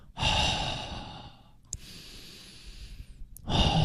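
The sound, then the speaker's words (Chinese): A deep breath during a breathing exercise: a loud, rushing inhale, then a longer, softer exhale, and another strong breath starting at the end. “其实我建议如果你到极致的时候吸气，然后到末端开始尝试呼气”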